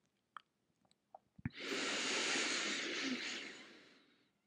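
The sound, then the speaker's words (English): A slow inhalation lasting about three seconds, a soft airy rush that swells and then gradually fades, preceded by a few faint clicks in near-silence. “When you become completely empty, slowly breathe in again.”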